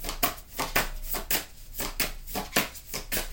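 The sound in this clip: Tarot cards being drawn and shuffled, a long run of crisp papery flicks and riffles in a quick, uneven rhythm with no talking.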